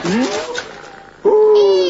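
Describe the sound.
A pet cat meows twice, answering a person's coaxing: a short first meow, then a gap and a louder, longer, drawn-out second meow with a clear tonal cry.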